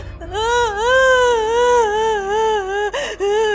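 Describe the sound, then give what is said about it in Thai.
A voice imitates a rabbit crying in a told children's story. It is a loud, drawn-out sobbing wail with a wavering, undulating pitch and a short break near the end. “มีแต่เจ้ากระต่ายตัวเดียวเท่านั้นที่นั่งร้องไห้เพราะว่ามันสอบตก”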